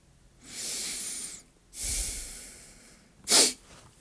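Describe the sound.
Heavy breathing after push-ups: three loud, rough breaths, the first two long and the third short and sharp, with no talk.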